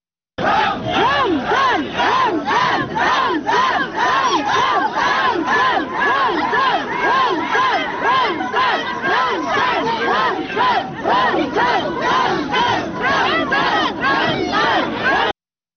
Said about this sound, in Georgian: გროზნოს ცენტრში შეკრებილი ადამიანები კი ხმამაღლა გახვიდოდნენ ალაჰ აკბარს და ჩეჩნეთის ლიდერის სახელს.